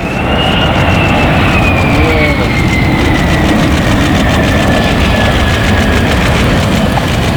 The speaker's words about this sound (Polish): F-35 przyleciały do bazy w Łasku w eskorcie polskich F-16. Nad samą płytą dwa niskie przeloty.